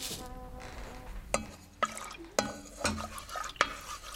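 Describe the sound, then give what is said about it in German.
Stirring and clinking of utensils in a pot while instant packet soup is cooked, with a few sharp metallic taps spaced out over a soft, steady bubbling background. “Bevor wir verhungern, koche ich uns schnell eine Suppe.”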